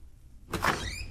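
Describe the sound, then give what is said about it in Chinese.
A door being pushed open: after half a second of quiet comes a short, soft swishing creak with a faint squeal, then a lingering low rumble fading out. “机要科长徐耀祖拿着一叠文件推门而入。”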